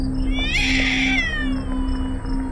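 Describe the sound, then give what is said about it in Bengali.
A single drawn-out meow from a white cat emerging from under a basin, a loud, high, tonal cry lasting under a second, set over a steady low electrical hum with no voices. “বেসিনের নিচ থেকে বেরিয়ে এলো একটা সাদা বেড়াল।”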